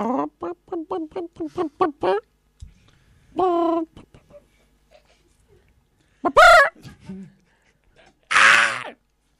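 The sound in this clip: Chicken clucking used as a censor bleep over speech: a rapid run of short, sharp clucks, then a few louder, longer squawks with quiet gaps between them.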